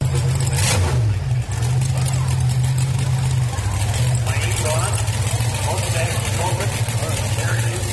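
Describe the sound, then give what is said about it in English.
Deep, throbbing engine of a Chevy Stallion wheelstander car throwing flames, a steady low growl that dips briefly, then shifts to a slightly lower held tone, with voices faintly behind it. “We got the Chevy Stallion wheel stander coming up. He's throwing flames right now.”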